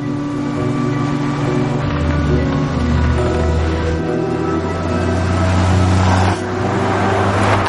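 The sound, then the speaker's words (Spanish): A 1940s-model taxi driving through snowy streets at night gives a loud, continuous engine drone with a steady rumble, its tone shifting in steps as it travels. “De noche, un taxi modelo años 40 circula por calles nevadas.”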